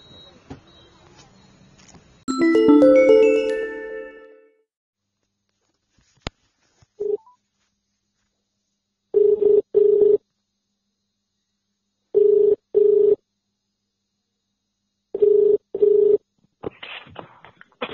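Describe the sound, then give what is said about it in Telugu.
Telephone ringing tones during a call in a discussion with farmers: a short burst of melodic tones opens, then a steady mid-pitched tone sounds in double pulses, three pairs spaced a few seconds apart with silence between. “Phone call వచ్చింది number నుంచి, ఎవరు మాట్లాడేది?”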